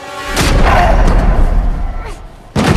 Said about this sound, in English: Rachel suddenly appears and smashes his head with a rifle.